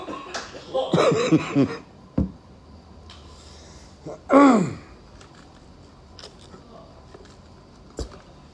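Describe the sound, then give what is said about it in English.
A man dry heaves after smelling a bottle, letting out two loud, strained retching bursts, the second sliding down in pitch, with a few short faint clicks in the quiet gaps between. “Taking a pause here, folks. He'll be back. I wish you guys had a video going, because I'm tearing up. Talking about a dry heave.”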